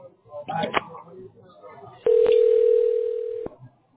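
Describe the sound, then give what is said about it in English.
Telephone line sounds as a call is placed: a short stretch of murmuring voice and a couple of clicks, then a loud, steady dial tone for over a second before it cuts off. “You will hear me dialing.”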